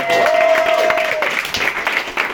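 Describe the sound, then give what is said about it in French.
Audience applause for accordion players, a dense steady patter of many hands clapping at moderate loudness, with a sustained tone and some voices mixed in at the start, then tapering slightly. “Léo et Bulle, on peut les applaudir aussi.”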